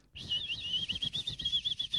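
Small birds chirp faintly as they gather for pieces of meat set out for them, a thin, continuous high twittering that wavers steadily over a soft low rumble.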